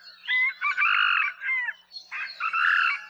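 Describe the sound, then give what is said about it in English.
A Hawaiian moa, a red junglefowl rooster, crows with a loud, raspy, high-pitched call broken into several distinct syllables that end abruptly, with no voices present. “The last syllable in the rooster's four-syllable cock-a-doodle-doo call is much shorter in the moa than the domestic chicken. Here's the call of the moa.”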